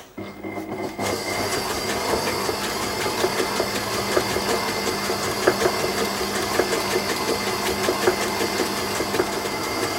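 An electric mixer running on low speed, blending cake batter with vanilla extract and red food coloring: a steady, fairly loud whirring motor drone with a faint rattling texture that holds evenly throughout.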